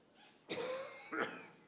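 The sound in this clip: A person coughing twice, two short, rough bursts about half a second apart, fairly faint.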